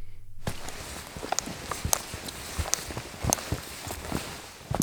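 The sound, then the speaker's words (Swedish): Footsteps of a group of people walking together in silence on a pilgrimage hike out in nature: many irregular, overlapping steps of moderate loudness, with no talking. “Det är en utmaning att gå tyst. Att gå där med massa andra människor och inte få prata”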